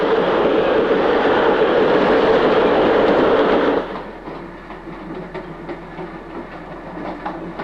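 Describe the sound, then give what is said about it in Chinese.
A train running on rails makes a loud, steady rumble with rapid wheel clatter for nearly four seconds. It then drops abruptly to a quieter, steadier rolling rumble with faint clicks, and no voices are heard. “你说这火车要去澳洲的话该多好啊。”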